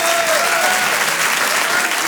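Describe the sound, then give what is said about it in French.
A comedy club audience applauds loudly, a dense, steady wash of clapping hands that holds at full strength without a break for the whole stretch. “Je vous demande de l'applaudir lui aussi très fort.”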